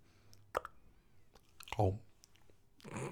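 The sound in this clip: Chewing and crunching of french fries eaten with a fork: a few scattered soft crisp bites and clicks at low level, with a voice briefly murmuring between them.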